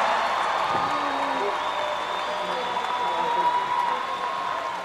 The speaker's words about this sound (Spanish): ¡Un aplauso!